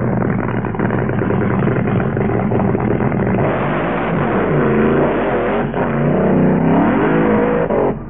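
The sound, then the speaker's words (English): A Top Fuel dragster launches on a wet drag strip with its engine missing. The roar is loud, sustained and rough, with an uneven, wavering note throughout. “This is a Top Fuel dragster about to move on. Have a listen.”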